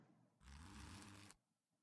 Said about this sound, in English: There we go. Just the zipper.